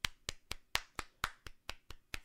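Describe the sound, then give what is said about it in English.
A golf clap: ten soft, evenly spaced claps from one pair of hands, quiet and unhurried, with nothing else heard between them. “golf clap to you, good sir.”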